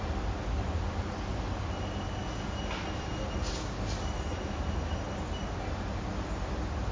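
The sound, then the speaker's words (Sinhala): Ambient sounds from a fan, birds, vehicles and squirrels: the fan's steady, loud, broad whirring hiss fills the whole stretch without a break, holding one level throughout. “Fan එකේ ශබ්දේ, කුරුල්ලෝ කෑ ගන්නවා, වාහනවල ශබ්ද, lane කෑ ගන්නවා”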